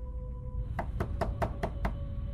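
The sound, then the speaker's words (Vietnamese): Six quick, sharp knocks on a door in an even rhythm, growing more forceful, heard fairly softly over a low, steady hum. “Tiếng gõ cửa lại vang lên và lần này tiếng gõ cửa đã mạnh hơn.”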